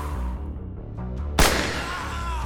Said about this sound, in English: And I don't know if you know how much noise a 45 handgun can make.